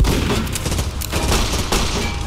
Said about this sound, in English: Oh shit, that thing's already got its laser going again. Take cover behind those wall panels.